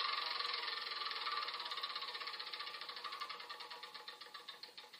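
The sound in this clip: A board game spinner whirring and ratcheting: dense, rapid clicks that gradually slow into distinct, evenly spaced ticks as the wheel winds down.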